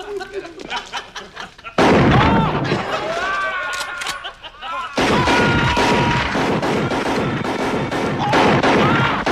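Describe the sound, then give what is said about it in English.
Sustained heavy gunfire in a film scene as several men empty their guns into one man. A loud, dense barrage of rapid shots and bursts, with voices mixed in. “And he gets virtually every bullet in all these bastards' guns emptied, unloaded into poor Alex Murphy.”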